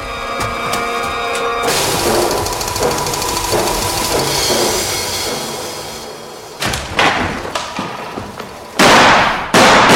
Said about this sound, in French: J'ai le petit d'une balle en plein front! Attention, l'autre s'échappe! Ah, j'ai touché au bras, vite!